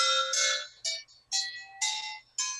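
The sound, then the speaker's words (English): A pentatonic chime is struck six times in an unhurried sequence. Its bright, metallic tones differ in pitch and ring briefly before fading, heard alone. “this is, of course, our pentatonic chime, which we absolutely love here. I'll I'll try to give you a little tone here.”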